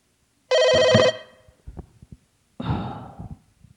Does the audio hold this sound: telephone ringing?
yes